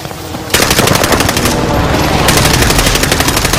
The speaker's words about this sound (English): Squad member is redeployed. Precision airstrike missed.